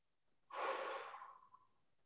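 A single slow, calming breath, a soft airy exhale that swells quickly and then gradually fades over about a second, heard alone.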